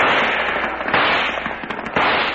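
Gunshots crackle in a dense, rapid barrage as a gang fires on a house during a shootout, with two sharper, louder bursts standing out from the steady popping.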